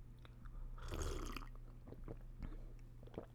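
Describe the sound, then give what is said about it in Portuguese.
A faint sip of green tea: one soft, airy slurp that swells and fades, then a few small, quiet clicks and wet mouth sounds. “E ainda por cima estou a beber chá, chá verde.”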